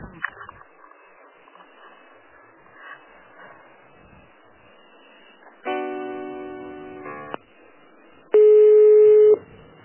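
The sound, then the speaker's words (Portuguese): Telephone tones while a call is put on transfer: faint line noise and muffled speech, then a buzzy multi-tone signal for about a second and a half, a short gap, and a louder steady beep lasting about a second. “Eu vou transferir a ligação, só um pouquinho, tá?”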